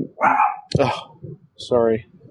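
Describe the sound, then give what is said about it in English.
A pet dog barks in three short, loud vocal bursts. The last is a longer, tonal whine-like bark. “apologies if you can cut that out. My dog is being a pain.”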